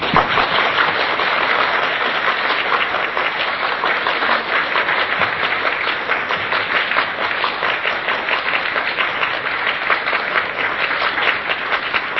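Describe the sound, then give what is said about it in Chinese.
Warm, sustained applause from a crowd seeing off an elderly monk at the close of a Buddhist ceremony. Dense, continuous clapping stays loud and even throughout, with no pause or voices. “荣幸以最热烈掌声恭送老和尚回寮。”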